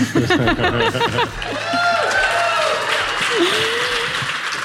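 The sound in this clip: Audience applause in an auditorium at a live recording: a steady wash of clapping rises after a short spoken opening and continues under a voice.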